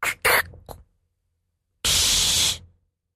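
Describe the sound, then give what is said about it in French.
A voice imitates a soda bottle being opened: a few short breathy bursts, a pause, then one loud sustained hiss lasting under a second before fading out. “Une bouteille de soda qu'on ouvre”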